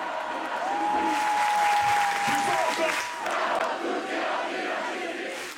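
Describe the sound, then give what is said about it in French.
A crowd at an evening protest rally chants slogans loudly, with applause and cheering mixed into the steady roar of many voices. “Entre les concerts, les prises de parole et les stands, les slogans sont scandés haut et fort.”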